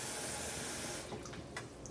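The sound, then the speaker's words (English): Water runs into a kitchen sink while it drains: a steady broad rush that thins after about a second into a lighter flow with scattered splashes and drips. “I'm draining, I'm straining, I'm cooking and boiling and other shit in my kitchen.”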